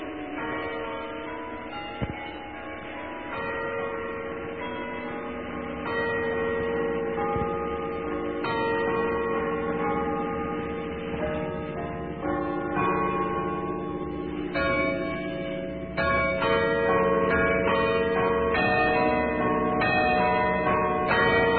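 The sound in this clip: Carillon bells ring high in the tower of an old garrison church in Potsdam. Overlapping, ringing tones play a steady melody at an even, moderate loudness throughout.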